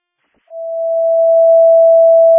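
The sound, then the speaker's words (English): A fire department dispatch paging test tone sounds after a brief silence: a single pure, steady pitch that holds unbroken to the end and swells slightly louder as it sustains. “can it please get a test page with a general tone? Checking tones at station 4.”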